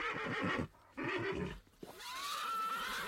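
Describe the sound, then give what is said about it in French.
Panicking horses neigh and whinny in shrill, wavering bursts, with a few calls separated by brief gaps and the last one stretching out with a rising pitch. “Et les chevaux paniquent.”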